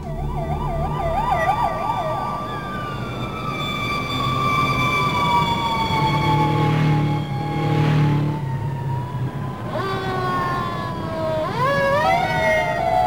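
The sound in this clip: Emergency vehicle sirens wail continuously and loudly, their pitch sweeping up and down. Several tones overlap, with a rapid warble at the start and sharp rising whoops toward the end.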